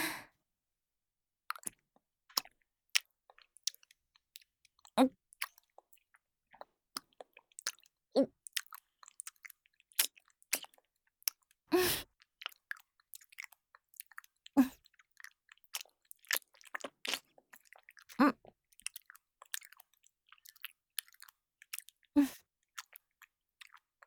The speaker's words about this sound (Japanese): 食べ物をよく噛んでるだけ。このままじゃ飲みにくいから、口の中で細かくして。